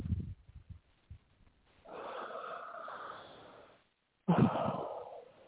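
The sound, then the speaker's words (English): A deep breath. A few short, snuffly puffs of air come first, then a long, sustained airy rush, and after a brief pause a second, stronger breath that fades out. “Good breath. That's the kind that heals.”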